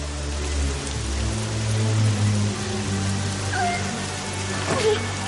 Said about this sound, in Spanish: La lluvia empapa su pelo y su ropa.